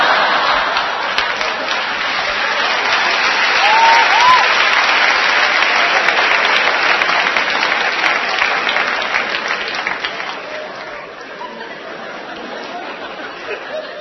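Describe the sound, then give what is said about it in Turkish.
Audience applause at a stage show: dense, sustained clapping from many hands, steady and loud throughout before easing slightly toward the end. “Alkış çok önemli be kardeşim. Başka hiçbir yerde alamazsın.”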